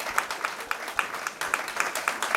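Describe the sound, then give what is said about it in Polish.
Applause for a finalist band at a music competition final: many quick claps merge into a fairly faint, steady crackling wash that carries through the whole moment. “Wielkie brawa.”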